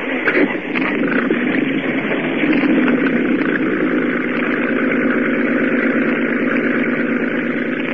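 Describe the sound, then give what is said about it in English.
A boat motor runs with a steady, mid-pitched droning rumble that stays continuous and fairly loud throughout, with no voices. “Start the motor up again.”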